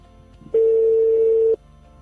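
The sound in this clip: One steady ringback tone sounds for about a second on an outgoing telephone call, a plain, even, mid-pitched hum that starts and stops cleanly against quiet line noise.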